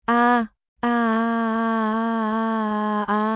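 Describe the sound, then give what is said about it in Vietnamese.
A despairing moan from a character who has just been pierced by a bayonet, low and voiced. A short burst breaks off, then a long, steady moan holds its pitch and dips briefly near the end. “Masu phát ra tuyệt vọng rên rỉ”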